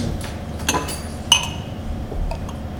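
Glass clinks as a Hathi Brewing King Hathi beer bottle is cracked open: a few sharp, bright chinks and taps over a low, steady background.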